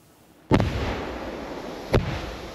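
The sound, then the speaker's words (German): Two controlled blasts destroy a pair of WWII anti-tank mines, each about 5 kg of explosive, set in dug holes in a forest near Ludwigslust, Germany. Each loud sharp bang rolls into a long rumbling decay, and the second follows about 1.5 seconds after the first. “In einem Wald bei Ludwigslust hatten Spaziergänger in der vergangenen Woche zwei Panzerminen entdeckt. Die wurden heute sicherheitshalber gesprengt.”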